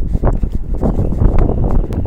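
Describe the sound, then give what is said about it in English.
Wind on a breezy day outdoors, buffeting the microphone with loud, low, rumbling gusts that pulse irregularly and continuously for about two seconds. “It is breezy, I will say that. It is breezy.”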